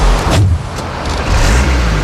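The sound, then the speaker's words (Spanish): A diesel car's engine in Copenhagen, a loud, continuous low rumble with broad road-like noise that stays fairly even throughout, with no voices. “Y ves, arranca, eso no es eléctrico, tiene que ser un coche eléctrico. En Copenhague tiene que ser un coche eléctrico, hombre. Este coche es de gasoil, por lo menos. Este coche es de diésel.”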